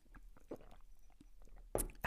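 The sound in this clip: A quick sip from a drink: faint mouth and swallowing noises, then two short, louder bursts close together near the end.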